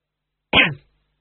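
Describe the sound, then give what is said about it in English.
A man gives a single short cough, a brief throaty burst with no talk around it. “He coughed.”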